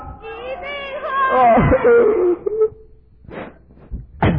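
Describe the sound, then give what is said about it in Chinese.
A boy cries in a loud, wavering wail whose pitch bends up and down, followed by a few shorter sobbing bursts. “一个男生哭成那样，像话吗？”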